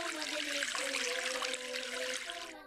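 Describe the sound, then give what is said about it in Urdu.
Water runs steadily from a tap as both hands are rinsed, a continuous bright hiss with no breaks across the whole stretch. “اب اس کے بعد نل کھول کر دونوں ہاتھوں کو دھوئیے”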